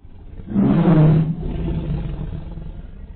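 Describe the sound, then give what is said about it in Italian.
A tiger gives a powerful, roar-like meow, one loud, low, throaty call lasting under a second. A quieter, deep rumbling growl trails on after it. “un potente miagolio che poteva scambiarsi per un vero ruggito”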